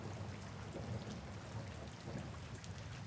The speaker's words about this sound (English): It's the wheels spinning over the track and a low rumble. From all of the thousands of screws and murmurs and pistons and cylinders and other individual components that together create this humming.